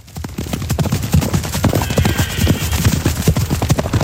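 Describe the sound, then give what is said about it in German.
Horses gallop across a mountain pasture in the Safiental valley. Many rapid, loud hoofbeats drum irregularly throughout, with neighing mixed in. “Im Moment galoppieren die Ross von Corinna Brunner noch über die Weide drinnen im Safiatal.”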